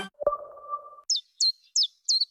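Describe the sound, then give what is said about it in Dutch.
A chiffchaff sings four short, high, evenly spaced notes. They follow a brief, steadier low tone. “Wanneer hoor jij de eerste tjiftjaf?”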